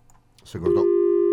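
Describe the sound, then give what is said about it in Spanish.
A telephone tone as a mobile phone call drops: a brief burst of voices and noise gives way to a flat, loud, steady tone that holds unbroken to the end. “Se cortó. Se cortó mal. Se cortó. Con ruido y todo, con el aviso.”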